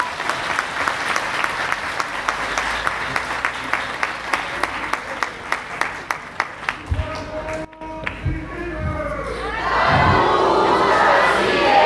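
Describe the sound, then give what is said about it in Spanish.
An audience applauds at an event honouring the parents of students, with steady rhythmic clapping in unison, then a louder swell of cheering and shouting from the crowd. “Un fuerte aplauso para ellos,”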